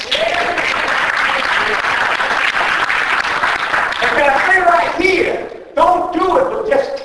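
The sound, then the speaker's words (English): A church audience claps during a sermon. The clapping is loud and dense at first, then voices take over in the second half as the applause gives way. “Is anybody going to clap on”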